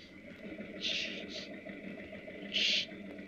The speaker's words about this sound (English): Okay, intake's connected. Try for leaks. Start your intake pump.